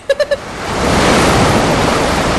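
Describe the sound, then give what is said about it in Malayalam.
A big ocean wave crashes on a Goa beach, swelling into a loud, broad hissing roar that builds and then holds steady. Three short tonal blips come just before it. “ഒരു ഉഗ്രൻ തിര അടിച്ചു കയറി വരുന്നുണ്ട്. ഇത് കൊള്ളാം. ഏ, വെള്ളത്തിലോട്ട് അധികം ഇറങ്ങണ്ടാട്ടോ.”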